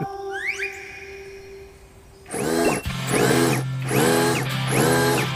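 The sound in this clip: A power tool drives a nail in a few loud, whirring bursts over a steady low hum, with faint high chirping sounds before it starts.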